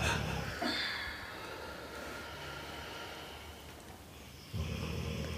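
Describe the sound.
A long breath out during a guided breathing exercise: a steady, breathy whoosh that carries on for several seconds before easing off.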